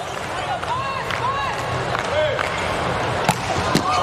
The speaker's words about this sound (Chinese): 哇，这个球发出来了，哈内斯发球直接得分，快到130了，这个发球的时速。